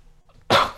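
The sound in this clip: A woman's single sudden sneeze on air during a live weather forecast, a sharp, loud burst after a quiet lead-in that fades quickly.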